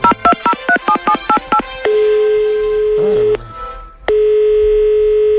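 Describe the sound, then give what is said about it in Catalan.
Telephone keypad dialing tones play as a rapid run of short, evenly spaced beeps. A long steady tone follows, then a brief garbled sound, then another sustained steady tone. “Deixem-me fer unes trucades. Bé, deixem-me fer una trucada ràpida. Deixem marcar...”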